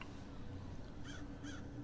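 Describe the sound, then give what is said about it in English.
A crow caws inside an old derelict building with a torn-down wall and a gap in the roof. Two short, faint, raspy calls sound close together over a steady low rumble. “and a crow looks up to you and flies out the gap in the roof.”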